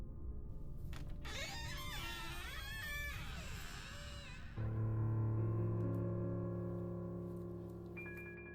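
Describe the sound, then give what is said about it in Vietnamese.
A door hinge creaking as a house door is pulled open, a long wavering squeal that bends up and down in pitch, then gives way to a steady droning tone. “Tiếng bàn lề vang lên kéo kẹt”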